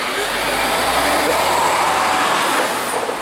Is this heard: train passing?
yes